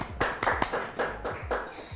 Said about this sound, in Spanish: Un aplauso para él.